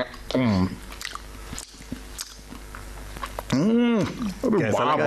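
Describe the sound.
A sandwich is eaten with soft, wet chewing and small bites heard between bursts of nearby talk.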